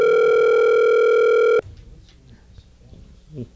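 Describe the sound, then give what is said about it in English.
Telephone dial tone on a call-in line: a loud, steady hum lasts about a second and a half, then cuts off abruptly, leaving only faint background noise. “Some dialing music playing? Yes, it is.”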